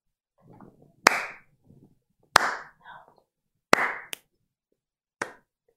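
Slow, sharp hand claps, about five in all, unevenly spaced with longer gaps between them. Each clap is crisp and abrupt, and one falls soon after another. Faint low murmuring fills the pauses.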